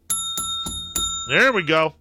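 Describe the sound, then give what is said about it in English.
A small bell rings four times in a quick, even rhythm, each strike bright and metallic with lingering tones, before a person starts talking. “There we go. You get the bell.”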